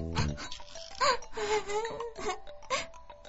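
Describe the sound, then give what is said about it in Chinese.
A human voice performs an orangutan crying: a series of wavering, sobbing wails and moans that rise and fall in pitch, broken by short catches of breath, fairly loud and heard alone. “原来是红毛猩猩啊！你为什么哭啊？ 因为我很伤心啊。”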